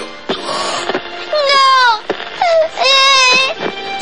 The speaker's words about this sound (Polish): Panie robocie, nie płacz, ruszaj w drogę.